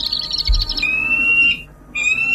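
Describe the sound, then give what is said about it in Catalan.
Peregrine falcon calls, a quick series of high chirping notes that give way to long, sustained high whistles, with a short silent break before the whistling resumes. “Aquest és un falcó peregrí, o pelegrí.”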